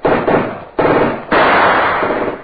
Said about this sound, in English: Hassan, the machine gun you see, Mr. Knight. Against that, you have no chance.